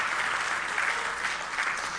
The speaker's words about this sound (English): And let's just give our God a hand again.